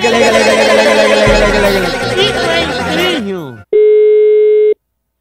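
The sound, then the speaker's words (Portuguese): Telephone busy tone after a dropped call: a jumble of noise and voices runs for several seconds, cuts out, then a single steady mid-pitched beep sounds alone for about a second. “A ligação caiu”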